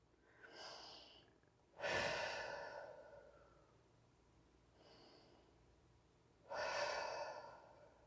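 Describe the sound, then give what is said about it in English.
Deep breathing in through the nose and out through the mouth: two full breath cycles, each a soft airy inhale followed by a louder, breathy sigh-like exhale, quiet and with no talk. “Let's take a couple of deep breaths in through our nose, out through our mouth before we get started.”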